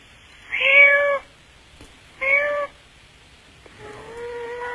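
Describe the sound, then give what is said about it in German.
A person imitates a cat meowing with three loud, drawn-out, whining meows separated by short pauses. The last one trails off at a lower pitch. “Miau uns doch mal was, wenn auch nicht mehr so perfekt wie früher. Aber ich würde es dann dennoch ganz gerne mal hören.”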